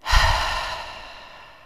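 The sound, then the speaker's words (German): A deep breath is let out through the mouth after being held: one long exhale that starts strong and airy, then fades slowly and steadily into a soft hiss. “Einatmen, kurz halten, weiter einatmen und noch richtig den ganzen Körper mit Luft füllen und ausatmen über den Mund.”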